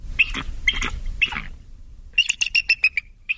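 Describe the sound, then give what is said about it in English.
A bald eagle calls with high, thin squeaky chirps: a few separate squealing bursts, then a quick series of sharp piping notes that trail off. “The actual bald eagle sounds like this.”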